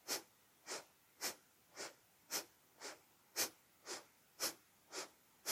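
Forceful bellows breathing in the Bhastrika yoga exercise, with powerful inhales and exhales: eleven sharp, breathy rushes of air in a steady, fast rhythm of roughly two per second, faint and heard alone.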